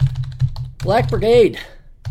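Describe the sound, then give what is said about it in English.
Quick clicking keystrokes on a computer keyboard, a steady run of many taps at the start and a few more at the end, broken in the middle by a short stretch of voice. “Oh, hang on, I got to type this in.”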